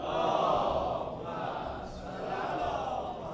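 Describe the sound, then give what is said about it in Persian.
A crowd chanting the salawat, a blessing on the Prophet, in unison. Many voices form a loud, sustained swell that dips briefly midway and then rises again. “باز هم سلامتی این دو بزرگوار، یک صلوات بفرستید.”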